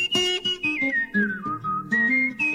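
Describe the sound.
A person whistles a short melody in clear, bright notes that glide and step through several phrases. The whistling is moderately loud and heard alone, with no talk.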